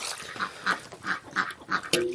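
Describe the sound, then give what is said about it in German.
A drake quacks noisily in a farmyard with chickens. Several loud, harsh calls come in a rapid, fairly even string, with one further short call at the end. “Ja, das ist der Erpel, der hier so einen Rabatz macht.”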